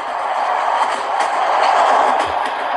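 Train running, recorded standing between carriages where metal plates bang together above the points: a steady, loud, dense roar of rolling and rattling that holds throughout, with faint clicks inside it.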